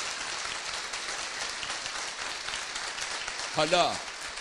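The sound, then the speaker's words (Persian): Audience applause, a steady dense wash of clapping throughout, with a brief voice rising over it near the end. “برای شادی روح مادر منم یه دست محکمتر بزنم.”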